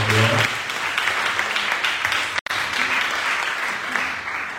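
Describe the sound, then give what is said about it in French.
A church audience applauds to acclaim the word of the Lord after a reading of the Good Samaritan. Dense, even clapping runs throughout, with one brief cut near the middle. “Est-ce que quelqu'un peut acclamer la parole du Seigneur”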